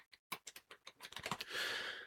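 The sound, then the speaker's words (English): Typing on a computer keyboard: a run of rapid, irregular keystrokes that grows denser and ends in a steady hiss, all fairly quiet. “If I can type.”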